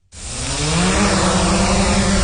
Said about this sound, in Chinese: 正操控着无人机喷洒肥料